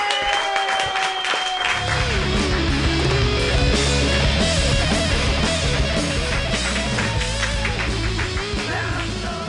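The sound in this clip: Comedy club crowd applauding and cheering the headliner, a dense, loud clapping roar with yells, joined after about two seconds by a low, pulsing musical bed that continues under the applause.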